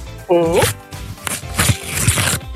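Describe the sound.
Paper tears as a numbered window, number 62, is ripped open, a brief rough crackle following a short stretch of talk.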